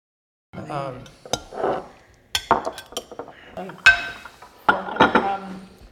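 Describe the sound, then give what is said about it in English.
Dishes and cutlery clatter at a dinner party meal, with a few sharp clinks and scrapes of knives and forks on plates breaking through people talking. “Well, yes, but the actual sounds, dishes clattering, knives and forks scraping up food, that's the sound of the plateware.”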